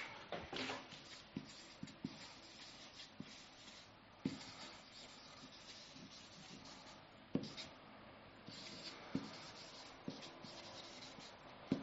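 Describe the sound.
Faint writing sounds, soft continuous scratchy strokes with a few sharper taps and clicks scattered throughout, heard alone with no talking.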